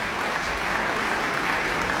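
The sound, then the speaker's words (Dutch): Audience applause after a chamber concert by clarinet, bassoon, horn and double bass at the Zeister Muziekdagen; steady, dense clapping, with no break in the sound. “Ja, het is heel snel afgelopen nu, want het publiek weet nu dat ze kunnen klappen tot ze een ons wegen.”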